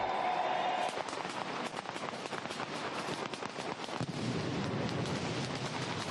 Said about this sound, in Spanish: Megahogar Electrodomésticos les ofrece el sonido de la pólvora, la mascletá del día.